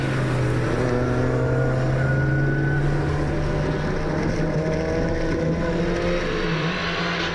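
Engine and road noise from a car fitted with rally tyres, driving on a wet road. A steady, loud drone runs unbroken through the whole clip, with no talking.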